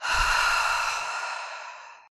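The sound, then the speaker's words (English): A single deep, breathy exhale in a breathing exercise, loud at first and then slowly fading to silence over about two seconds. “let's take a big deep breath into theme number three, breathing in through your nose and a big exhale out of your mouth.”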